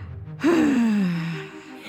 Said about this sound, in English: And breathe out through your mouth. Yes. Feel free to make some noise if you like.